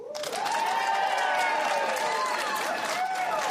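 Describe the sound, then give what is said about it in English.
Applause from a comedy show audience, a broad sustained clatter of many hands joined by shouted cheers and whoops above it, rising quickly at the start and staying loud and full to the end. “how many of you, by round of applause, have ever had an anxiety attack whilst high?”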